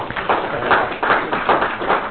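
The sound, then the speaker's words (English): A round of applause for the speakers at a gathering, dense steady clapping from many hands at moderate loudness, continuous for the whole stretch with a slightly uneven patter. “I think a great round of applause, right, for all the speakers”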